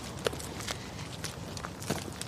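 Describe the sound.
Footsteps of people walking outdoors along the Limfjord on a grey, hazy day: faint, steady crunching steps, several in a row, with soft background noise.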